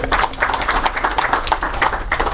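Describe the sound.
Audience applause welcoming a speaker: many hands clapping in a fairly muffled, thin-sounding burst of quick irregular claps that stays steady and moderately loud throughout.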